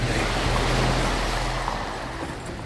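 Sea waves wash in a steady, broad hiss with a low rumble beneath as men carry boats through cold water toward a submarine during a 1942 wartime landing. The surf stays even and fairly loud throughout.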